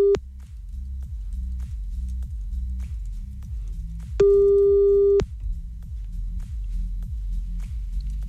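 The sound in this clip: Telephone busy tone after a dropped call, a loud, steady run of many short low beeps in an even, rapid rhythm, briefly interrupted by a longer, higher steady tone partway through.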